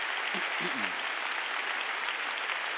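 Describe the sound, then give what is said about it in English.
Applause from the audience at Wooddale Church welcoming a pastor to the stage: a dense, steady wash of many hands clapping at an even level throughout, with faint voices briefly audible near the start. “Would you please give a warm welcome back to Pastor Dale?”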